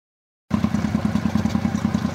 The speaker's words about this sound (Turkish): Aydın kafasında siyah kaskıyla motosiklet üzerinde, motor ve araba tamircilerinin bulunduğu bir sanayi sitesinde.